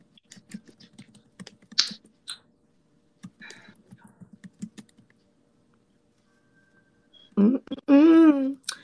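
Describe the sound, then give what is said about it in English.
Typing on a computer keyboard comes as many quick key clicks in uneven bursts with short pauses, fairly soft, before a voice speaks near the end. “I'm going to type that one in because I think that one is a good one.”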